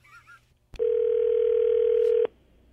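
Telephone dial tone as a call is placed: a single steady, mid-pitched electronic tone sounds loudly and evenly for about a second and a half, then cuts off abruptly, with near-silence before and after.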